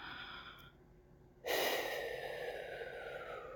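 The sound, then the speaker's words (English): Deep breathing in and out during a guided relaxation session: a faint airy breath, then a louder, long rushing breath that holds steady before easing slightly, with no talking. “Okay, deep breath again. Breathe with me.”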